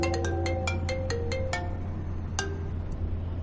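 A telephone ringtone plays a quick electronic melody of bright, chiming notes for about a second and a half, then sounds one more note before the call is answered. A steady low hum runs underneath throughout.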